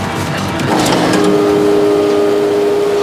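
A just-repaired car's engine catches after a brief burst of noise, then settles into a loud, steady running drone with a sustained tone, alone without talk.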